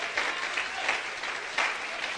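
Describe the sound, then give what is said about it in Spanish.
A church audience applauds during a sermon with sustained, dense clapping that swells louder a few times, without talk over it. “El aplauso sea más fuerte, que Él se lo merece.”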